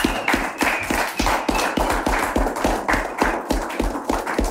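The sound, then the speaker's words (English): Steady rhythmic clapping from a church audience, with many sharp claps in an even beat and a low thumping pulse under each clap, continuing without a break. “Well, let's put our hands together for the King of Kings.”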